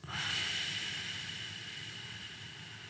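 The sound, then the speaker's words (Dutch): Breathing through the nose during a slow breathing exercise: one long, soft, airy rush begins abruptly and then gradually tapers over about three seconds, heard alone without talk. “Even voor je, dus je ademt in gewoon door je neus. Ja, laten we zeggen 4 tellen. Ja. 7 tellen uit.”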